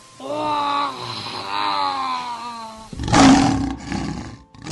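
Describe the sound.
An animal roars to call its family back, first a long, wavering, moaning roar, then a shorter, rougher and louder noisy roar.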